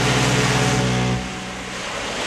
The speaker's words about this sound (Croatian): ovako lijepo uz valove mora